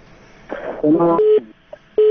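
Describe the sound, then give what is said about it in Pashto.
Telephone line cutting off during a radio call-in. A short burst of electronic tones gives way to steady mid-pitched beeps that stop and start again, with a brief blip in the gap. “ستاسو ټلیفون قطع شو خو خیر.”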